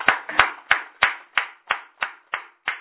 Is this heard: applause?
yes